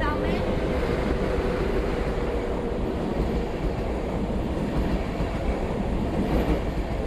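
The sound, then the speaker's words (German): Train sounds at a station platform, where trains stop and leave: a loud, steady rumble of rolling rail cars with dense clattering runs without a break through the whole stretch. “Züge halten und fahren weiter.”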